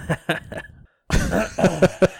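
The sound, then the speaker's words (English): A man clears his throat in a few short, raspy bursts, pauses briefly, then follows with another rougher run of throaty, cough-like noises. “He clears his throat.”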